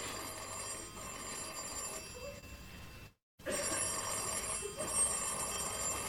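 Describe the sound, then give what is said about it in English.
A telephone bell rings at 2 o'clock in the morning, faint and persistent, going on and on with one brief silent break partway through. “What, at 2 o'clock in the morning? Are you going to answer it? No, let it ring.”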